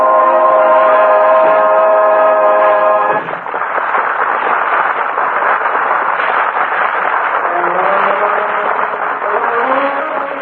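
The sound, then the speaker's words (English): A railroad train packed with passengers and baggage rumbles along steadily. Horn-like tonal blasts sound at the start, then a dense, loud rolling noise continues to the end. “The last we saw of Charlotte Greenwood, she was swept along by a hysterical human guide and shoved into a railroad train jammed with passengers and baggage. She's been on that train now for almost 2 hours.”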